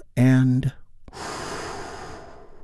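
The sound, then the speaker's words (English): A big, deep breath taken during a guided relaxation, heard as a short voiced sound followed by a long, soft, airy breath lasting over a second. “Let's take a big, deep, healing breath with me right now.”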